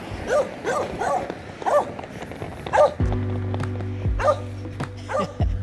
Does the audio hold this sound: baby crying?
no

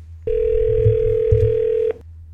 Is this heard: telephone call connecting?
yes

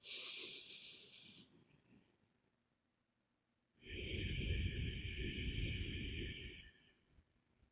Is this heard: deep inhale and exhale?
yes

